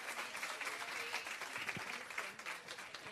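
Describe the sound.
An audience at a church gathering applauds to welcome a guest speaker, sustained dense clapping that stays level throughout with no voice on top.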